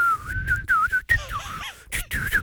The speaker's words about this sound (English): go on, whistle now